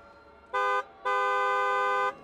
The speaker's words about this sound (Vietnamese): Có tiếng kèn xe tải rất lớn đang lao tới.